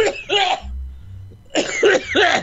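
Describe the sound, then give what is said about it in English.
Heavy breathing from a person: two loud clusters of breathy, voiced huffs and gasps, separated by a short quieter gap with a low hum underneath. “That's some heavy breathing going on there.”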